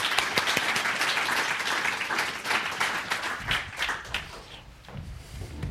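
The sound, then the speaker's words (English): An audience at a book conversation applauds to welcome two guests. Dense clapping with distinct sharp claps starts strong and thins into scattered, uneven claps toward the end. “Let's give them both a very warm welcome.”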